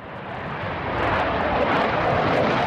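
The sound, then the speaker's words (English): F-15 fighter jets take off at Naha Military Air Base in Okinawa, a broad, rumbling engine roar that swells louder and then holds steady and dense. “It's a busy morning on the runway of the Naha Military Air Base here in Okinawa. I've watched at least half a dozen F-15 jets take off.”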